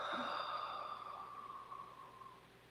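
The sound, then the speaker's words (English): A deep breath during a guided breathing exercise: one long, soft, airy sigh that fades gradually until it trails away, faint and alone. “Nice big inhale. And exhale.”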